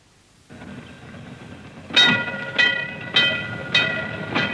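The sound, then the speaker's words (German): A tram rolls by on rails, giving a steady whining hum under five evenly spaced metallic clacks as its wheels cross rail joints, each clack sharp and ringing before it fades. “Und was hören wir jetzt? Wir hören die Straßenbahn. Wir hören die Bahn.”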